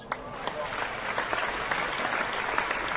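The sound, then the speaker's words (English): Studio applause welcomes a guest onto a radio show, a dense, steady patter of clapping lasting the whole few seconds at moderate loudness with an even texture throughout. “Well, instead of clapping, I'd rather people throw money.”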